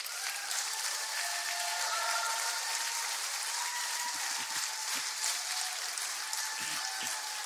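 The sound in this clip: Warm audience applause welcoming a speaker to the stage at a faith-themed event: sustained, bright, steady clapping that fills all seven and a half seconds without pause.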